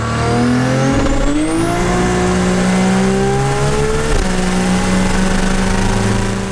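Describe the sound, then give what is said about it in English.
A turbocharged 1300-horsepower VL car engine, running without an air filter, revs loudly and continuously. Its pitch climbs over the first two seconds and then holds high and steady, with one brief stumble before it settles again. “this is another video, a 1300 horsepower VL turbo we did.”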